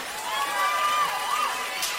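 Applause and cheering from an audience greeting a steel guitar player: a steady, dense wash of clapping throughout, with a sustained gliding tone bending through the middle.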